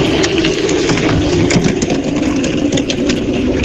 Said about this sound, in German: Also pass auf, das ist das Geräusch von einer Seifenkiste, die ins Ziel einfährt und bremst.